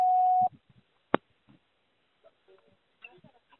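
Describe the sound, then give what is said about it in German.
An answering machine beep sounds as a single steady tone lasting about half a second, followed by one sharp click and a few faint, scattered noises. “Nach dem Signalton nehmen Sie Ihre Nachricht auf.”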